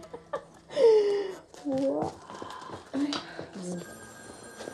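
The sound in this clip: A telephone bell rings amid lively voices, gasps and laughter, its tone partly buried under the chatter through the short stretch.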